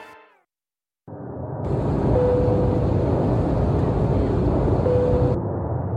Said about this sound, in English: This is your captain speaking. We've commenced our descent into Byron Ballina Gateway Airport.